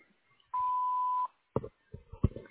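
A voicemail recording beep sounds once as a single steady, mid-pitched electronic tone lasting under a second, followed by a few brief low noises.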